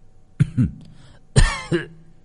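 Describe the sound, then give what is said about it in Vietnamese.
An old man sitting under a tree coughs four times in two pairs, each pair a harsh, raspy double cough followed by a short pause. “nghe thấy giọng Nguyệt mở mắt ho lên mấy tiếng khủ khủ.”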